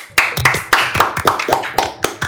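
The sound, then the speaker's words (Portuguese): Loud hand clapping by one person: a brisk, fairly even run of many sharp claps, sounding alone without talk. “Posso bater palma? Vou bater palma aqui.”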